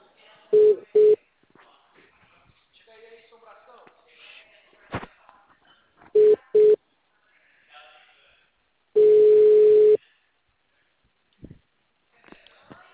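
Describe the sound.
Electronic telephone tones sound as a call is dialled to an office: two short beeps, then two more, then one longer steady tone about a second long. Quiet talk and faint noises fill the gaps between the tones.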